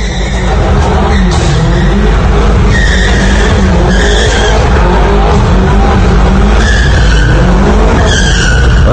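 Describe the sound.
Tires skid and squeal as a red BMW M5 spins donuts at an intersection. A loud, continuous roar of engine and rubber runs throughout, with repeated high squeals rising over it.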